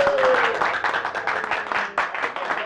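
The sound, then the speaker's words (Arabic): Applause from a gathered audience at a ceremony honouring a director, a dense, steady patter of many hands clapping at full loudness, with a brief voice at the start. “كفى كفى تصفيق أيها السادة”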